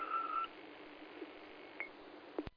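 A steady, high alert tone on the EMS dispatch radio, the second set of tones from Herkimer County dispatch to the Raquette Lake and Inlet ambulances. Radio hiss follows, broken by a short chirp and a sharp squelch click.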